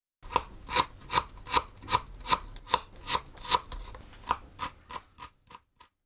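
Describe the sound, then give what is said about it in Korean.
Knife chopping peeled ginger finely on a board: many crisp, evenly spaced strokes in a steady rhythm that thin out and soften toward the end, with no talk. “먼저 생강 껍질을 벗겨 잘게 씁니다.”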